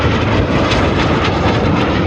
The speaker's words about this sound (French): Des avions qui plongent, qui tourbillonnent, qui passent à toute vitesse dans le ciel, lâchant parfois des fumigènes bleus, blancs, rouges.